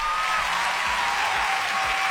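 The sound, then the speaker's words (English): Hand clapping heard as a dense, steady wash of applause, continuous and moderately loud with no voices over it. “Oh, let me just clap hands for myself”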